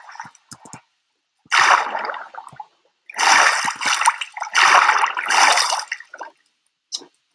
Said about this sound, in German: Ich mach Rückenschwimmen. Schwimmen.